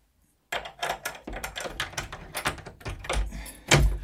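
A key rattles and turns in the lock of a museum exhibition room's only door, giving many quick metallic clicks and scrapes with a heavier clunk near the end; no one speaks.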